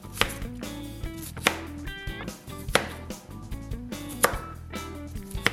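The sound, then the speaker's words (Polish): A knife cuts cauliflower into large florets on a board, giving many crisp chopping strikes at an uneven pace, some louder than others, over a steady tonal background. “Kalafiora kroimy na takie w miarę duże różyczki, żeby fajnie nam się później je obtaczało w jajku i w bułce tartej.”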